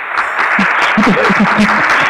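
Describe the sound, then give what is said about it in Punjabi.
Steady applause in a comedy show, a dense, even patter of clapping hands throughout, with a voice briefly audible over it. “ये लीजिए एक तो तालियां दे देते हैं हम पहले”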